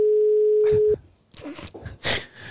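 The steady ringing tone of an outgoing telephone call sounds for about a second and then cuts off as other noises follow.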